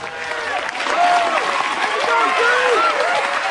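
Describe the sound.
A crowd applauds at a school prom as the prom king is announced and crowned: sustained clapping that grows fuller after the start, with several people talking and calling out over it.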